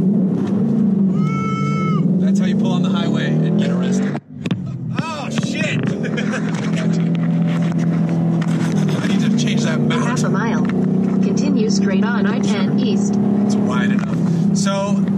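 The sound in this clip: Inside a moving 2018 Ford Mustang GT on a highway, a steady low engine and road drone fills the cabin while people talk over it.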